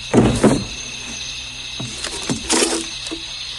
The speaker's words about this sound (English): She shuts the door.